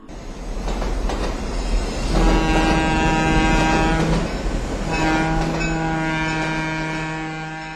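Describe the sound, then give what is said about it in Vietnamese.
Trains arriving from Mỹ Tho and Biên Hòa, with a steady heavy rumble and two long, sustained horn blasts. The second blast fades slowly. “Lại thêm những đoàn xe lửa, tốt dưới Mỹ Tho, tốt trên Biên Hòa, tiếp nhau rầm rầm về tới, thổi xếp lê nạt đường nghe gian rân”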